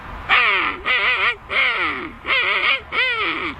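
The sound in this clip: A person imitates a king penguin call with five loud, nasal, trumpeting bursts of warbling, wavering pitch, separated by short pauses.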